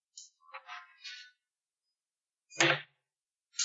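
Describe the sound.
An arrow being shot, a sound effect in a Kingmaker game session: several short hissing swishes, then a louder, fuller burst with a low thump, and a fresh hiss starting at the very end, with no talk.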